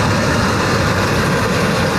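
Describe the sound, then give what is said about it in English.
Steady, loud low rumble of a commercial truck engine running, with a dense, even roar that holds without pause for the whole stretch and no voices. “Not far behind the house, the first official commercial truck, with Jim Pereira at the wheel.”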